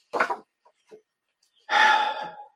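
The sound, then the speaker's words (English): A deep breath during a group's closing affirmation: a short breathy puff and a couple of faint small sounds, then one long, loud, rushing breath that fades out after nearly a second. “Yes, deep breath.”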